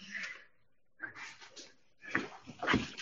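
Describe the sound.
A dog whimpers in a few short, breathy bursts of whining with quiet gaps between them, moderately loud and without any talk.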